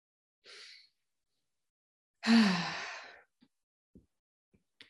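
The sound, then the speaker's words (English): A deep breath during a guided voice and relaxation session: a short, soft inhale, then after a pause a louder, longer voiced sighing exhale with a low falling tone, followed by a few faint clicks. “Let's take a deep breath together and get started.”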